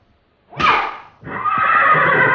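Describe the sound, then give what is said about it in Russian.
A rearing horse gives a loud, sharp neigh that drops off quickly, then breaks into a longer, rough, sustained whinny that holds steady to the end. “Лошадь взвивается на дыбы и полным карьером несется назад в конюшню.”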